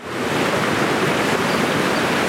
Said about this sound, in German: Das Rauschen vom Rhein und die Vögel, die zwitschern.